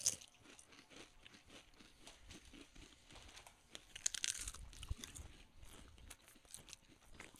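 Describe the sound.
Faint crunching and chewing of a snack being tasted, with irregular crisp bites and crinkling that run through the whole stretch and grow a little louder midway.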